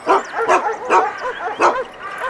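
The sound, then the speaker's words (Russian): A large guard dog on a heavy chain barks by its kennel in a farmyard, giving a few sharp, fairly loud barks in an uneven rhythm, with whimpering yips between them. “Знакомится с хозяйской собакой. Так, вы близко не подходите. О, такая немаленькая собачка. И цепь у нее серьезная.”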